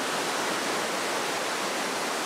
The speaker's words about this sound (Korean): 여기는 공유동의 명소예요. 낙하담이라고 해서 떨어진 물이 꽃잎과 같이 날린다 해서 낙하담이라고